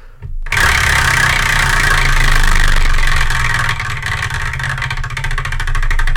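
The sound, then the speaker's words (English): Prize spinner wheel being spun, giving a loud, steady whirring rush with rapid ticking that holds for several seconds and eases slightly toward the end. “That was a good spin. I love the spinner.”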